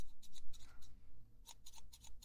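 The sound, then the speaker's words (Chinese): Scissors trim in a quick, soft series of crisp snips, then a short pause, then another run of rapid cuts, faint overall. “再帮你稍微修剪一下哦，不要乱动哦，”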